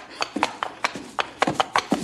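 Horse hooves clip-clopping in a quick, fairly even rhythm, many sharp knocking strikes that stand alone and moderately loud.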